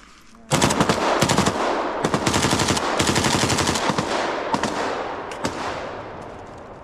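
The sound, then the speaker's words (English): Rifle gunfire at close range: a soldier shoots at another from a short distance, loud sharp cracks in several rapid bursts of automatic fire that ring on between shots, with no talk. “He shoots at the soldier from a short distance away.”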